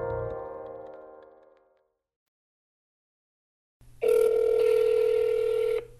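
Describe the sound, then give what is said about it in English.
Telephone tones play as a number from a business card is dialed. A fading harmonic tone is followed by a pause of silence, then a louder, steady tone with a low buzz lasts about two seconds before cutting off. “I tried calling the number on Panhandle Slim's business card.”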